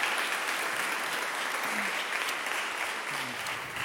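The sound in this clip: Audience applause welcoming a guest onto a stage: steady, dense clapping that holds at an even level throughout, with no clear break.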